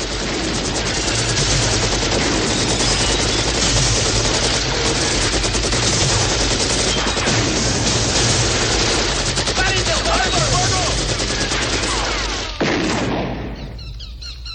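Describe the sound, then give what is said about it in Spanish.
Loud gunfire volley: a dense, continuous barrage of rapid shots that keeps going at full strength for several seconds, then breaks off abruptly and fades near the end. “¡Fuego, ladronazo! ¡Disparen!”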